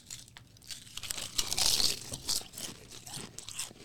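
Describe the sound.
Chips being eaten, with crisp, crackling crunches in a dense, irregular run of short bursts, fairly quiet overall and loudest near the middle, with no voices.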